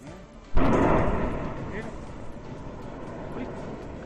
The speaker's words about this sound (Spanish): Son deflagraciones que se repiten con una onda expansiva que recuerda a la de una bomba cargada con kilos y kilos de explosivos